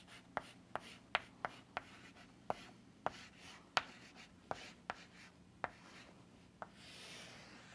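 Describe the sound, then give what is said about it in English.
Writing strokes sound as a state transition diagram is drawn: many quiet, sharp taps and short scratches spaced irregularly, with no voices. “If I were to draw this accumulator as a state transition diagram, I would do this.”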